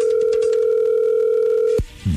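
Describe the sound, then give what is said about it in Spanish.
A telephone dial tone hums steadily and loudly while a call is being placed, then cuts off abruptly near the end and a brief, different sound follows. “ahí se está marcando.”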